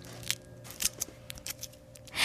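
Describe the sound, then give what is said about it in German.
Thin wrapping paper crinkles as it is carefully peeled off a chocolate surprise egg: a few soft, irregular crackles and rustles, fairly quiet, ending in a louder rustle. “So, und jetzt zieh ganz vorsichtig das Papier ab.”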